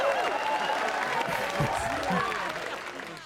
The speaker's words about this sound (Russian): Просто хлопай. Да! Поддержим!